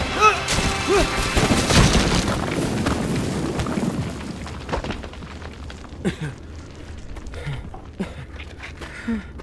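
Rumbling crash of a cave caving in, with heavy booming impacts densest and loudest over the first four seconds, then thinning into scattered smaller knocks and debris hits.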